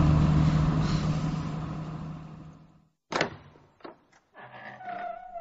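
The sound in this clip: A car being driven gives a steady engine and road rumble with a low hum. It fades out after about three seconds, followed by a few short thumps and faint sounds.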